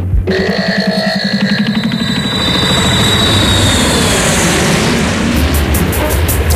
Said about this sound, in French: fais chauffer l'avion